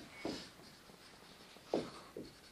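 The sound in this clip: Three short, faint scratchy strokes of writing, one early and two close together near the end, with quiet pauses between them.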